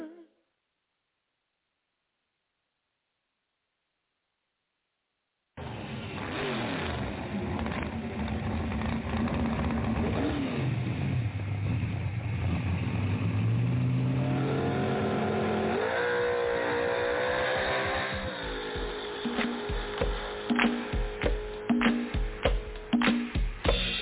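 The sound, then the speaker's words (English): A car engine revs during a U-turn. After about five seconds of silence, loud sustained engine noise starts, climbs in pitch through the middle, then breaks into choppy revving pulses near the end. “I gotta turn around, y'all, 'cause I was going the wrong way. I gotta start all over again. I gotta make a U-turn.”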